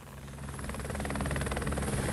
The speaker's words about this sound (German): Ein Hubschrauber fliegt über die Masai Mara, einem Naturschutzgebiet in Kenia